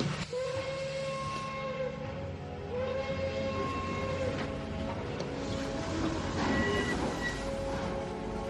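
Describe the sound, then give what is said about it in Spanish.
A train pulls away, its low, steady rumble and clatter running throughout while whistle tones sound intermittently above it. “Pues que salga el tren. ¡Adelante! ¡Que salga el tren!”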